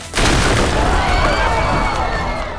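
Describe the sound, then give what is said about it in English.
A wall bursts into purple and orange flames in a sudden blast, which swells into a loud, sustained roar that continues for a couple of seconds. “the wall exploded into brilliant purple and orange flames”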